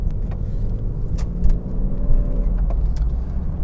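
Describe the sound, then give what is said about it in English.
A car drives through a small town with a steady, heavy low rumble of engine and road noise. A few faint clicks and light rattles sit over it, with no voices. “Driving through a little bitty town there.”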